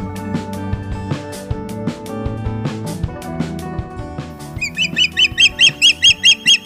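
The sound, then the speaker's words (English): Osprey calling, a rapid series of high, whistled chirps that come in late and grow louder, following a stretch of other steady tones. “That is the call of an osprey, courtesy of the Cornell Lab of Ornithology.”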